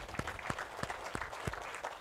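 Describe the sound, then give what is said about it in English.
Congregation clapping hands in praise at a church service: faint, fairly steady rhythmic claps from many hands, with a soft crowd murmur underneath. “Let's give the Lord a hand clap of praise in this house this morning.”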